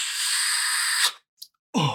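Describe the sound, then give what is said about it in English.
Vape exhale trick, a French inhale followed by a ghost cloud: a steady, airy hiss of breath lasting about a second stops abruptly, then near-silence with one brief faint puff. “Right here, I'm starting with what's called the French inhale, followed by the ghost cloud.”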